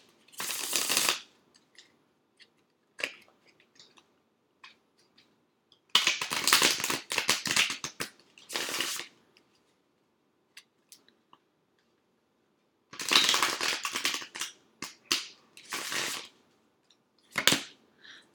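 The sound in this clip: Tarot cards from a Rider-Waite deck being shuffled and drawn: several bursts of brisk riffling, separated by quiet gaps and dotted with scattered sharp clicks.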